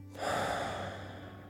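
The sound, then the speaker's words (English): A deep breath in and out during a guided breathing exercise: one long, soft, airy breath, faint and alone. “Take a deep breath in and out.”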